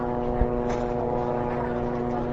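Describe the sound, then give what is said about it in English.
Unmanned reconnaissance planes circling overhead in southern Lebanon produce a constant propeller drone: a low, steady hum with layered tonal harmonics and no clear rise or fall. “All day, unmanned Israeli reconnaissance planes circled overhead, a constant reminder that the Israeli military is still monitoring activity in southern Lebanon, even after the ceasefire.”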